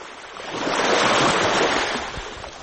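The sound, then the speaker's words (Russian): Foaming, hissing wake trailing behind a ship's stern off Yalta, a continuous broad rushing wash that swells in the middle and then eases, with no voices. “За кормой струился пенистый шипящий след.”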